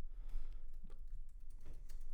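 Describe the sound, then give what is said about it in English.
Faint typing on a computer keyboard, a few quick, soft key clicks over a low background hiss. “Just type in Blanket Jackson, see if something pops up.”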